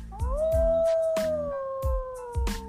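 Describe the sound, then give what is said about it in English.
A wolf howls in a long, sustained tone that rises briefly and then slowly falls, with a second, higher howl joining it, over regular low percussive thumps. “It's not hard to recognize the call of the wolf.”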